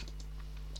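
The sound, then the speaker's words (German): Faint typing on a computer keyboard: a few soft, scattered key clicks ending in one sharper tap, over a low steady hum. “also es könnte sein, dass ich manchmal ein bisschen tippe und ein bisschen aufhöre zu reden, weil ich ein bisschen auch gucken muss soll.”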